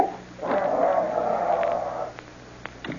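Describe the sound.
A dog growls, its army training having changed it: a low, rough, snore-like rumble rises in and holds for about two seconds, then drops away to near quiet with a few faint clicks.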